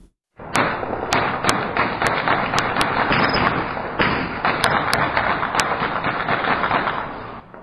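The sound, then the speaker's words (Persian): Light and heavy weapons fired at night in Sheberghan, Afghanistan, after an agreement signing: many sharp cracks and bangs burst over a continuous rumbling din for about seven seconds after a brief silent start. “این صداهای فیر اسلحه سبک و سنگین بود که شب گذشته پس از امضای توافقنامه بین دو دکتر محمد اشرف غنی و عبدالله در شهر شبرغان صورت گرفت.”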